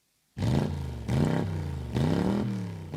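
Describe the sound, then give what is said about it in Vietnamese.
A motor vehicle engine drives along a village road, giving a low, rough rumble that surges in a few rising pushes, as if the throttle is revved, and stays fairly loud throughout. “Mấy bà chị đi làm đồng về, nghe thấy tiếng xe của thằng Tưởng thì hồn vía lên mây, vội nhảy sát vào lề.”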